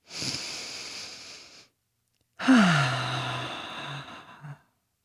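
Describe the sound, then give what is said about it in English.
A deep belly breath: a soft, breathy inhale, a brief pause, then a longer audible exhale that carries a low voiced sighing tone and trails off in a few small puffs. “then take a breath, which sounds like this”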